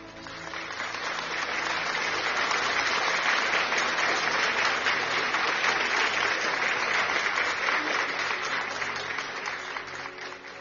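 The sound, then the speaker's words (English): Audience clapping during a church service, a dense, sustained wash of applause that swells early, holds steady for several seconds and tapers off toward the end. “Clap for Jesus for the prophet. Clap for Jesus for the prophet.”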